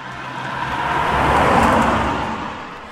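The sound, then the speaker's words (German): A taxi drives off, its engine and road noise swelling to a broad, steady roar that peaks midway and eases slightly toward the end. No voices are heard. “Kommt, steigt mit ein. Wir fahren mal zusammen zu Captain Speed und zu der Frieda. Seid ihr bereit? Und los geht's.”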